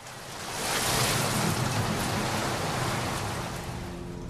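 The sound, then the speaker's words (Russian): Steady rainfall: a continuous, full-bodied hiss of falling rain that swells slightly and then eases, with no voices or other distinct events. “Шел дождь.”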